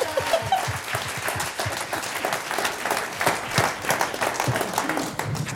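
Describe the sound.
Audience applause for a guest with sharp overlapping claps at a moderate, fairly steady level that pulses slightly and carries on for several seconds with no clear voices on top.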